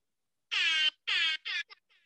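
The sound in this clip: An air horn sound effect blares in three loud, long blasts, followed by a couple of short, faint bursts as it sputters out.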